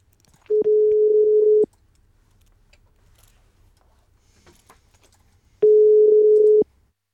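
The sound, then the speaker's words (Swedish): Telephone ringing tone on an outgoing call: two long, steady, single-pitch rings, each about a second, separated by roughly five seconds of near silence. “Ska ta och ringa upp Christer, ska vi se om han svarar.”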